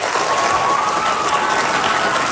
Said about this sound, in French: Je pense qu'on peut les applaudir.